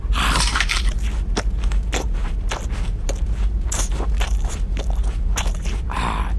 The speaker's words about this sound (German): Wir haben auch noch Pfefferkuchen. Her damit. Wüste Mann, isst sie einfach samt Papier und Bindfaden.